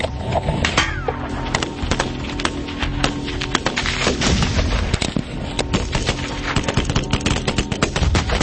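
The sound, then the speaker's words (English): .50 caliber gunfire, many sharp reports in dense, irregular rapid bursts, loud and continuous from start to finish. “What we've learned is you cannot hide behind an I-beam when there's a 50 cal present.”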